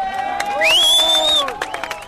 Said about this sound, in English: He's led away by cheering companions.